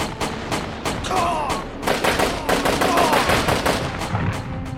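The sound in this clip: Heavy gunfire in a tank battle: many sharp, rapid shots fired in loud, unbroken bursts over a dense, rumbling background for the whole clip.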